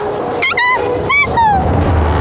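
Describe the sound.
Jackals give a few high-pitched yelps and whining calls, short and sharp, each bending downward in pitch, over a low background rumble.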